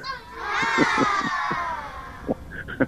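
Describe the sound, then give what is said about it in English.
A canned audience-laughter effect that comes out like children shrieking on a playground, a high crowd squeal sliding steadily downward in pitch, followed by a few sharp shouted bursts. “I was trying to hit a audience laughter, but it sounded like kids on a playground or something.”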